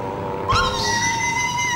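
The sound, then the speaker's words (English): A cat meows once with a drawn-out, rising, harmonic call over steady background noise. “Cat just went back round.”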